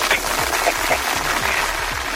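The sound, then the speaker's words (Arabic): An audience at a quiz game claps in a dense, steady patter that runs throughout at an even level, with no talk over it. “يلا واخا سيدي صفيقات عاود صفق لي على السير”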